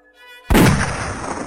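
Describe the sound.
A rifle shot rings out in the night air: a single loud, sharp crack with a rumbling tail that slowly fades, preceded by a faint sustained tonal note.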